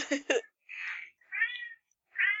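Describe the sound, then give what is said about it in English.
A cat meows three times. The mews are clear, fairly high and drawn out, separated by short silent pauses, and there is no talk over them. “Who let this cat in our speeder? I like him. I can't seem to get rid of it.”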